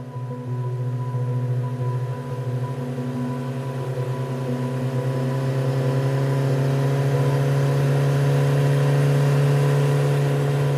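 A motorcycle engine runs in a low, steady drone with sustained humming tones. It swells slightly louder toward the end and holds an even pitch throughout.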